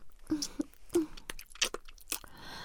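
Someone biting into and chewing food, with irregular crisp crunches and softer chewing sounds, quiet and close.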